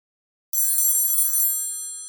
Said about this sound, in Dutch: De telefoon rinkelt.